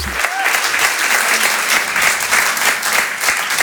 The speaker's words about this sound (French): Merci d'applaudir très fort pour sa première ce soir sur Rire et Chanson Comedy Club, Amy Landon.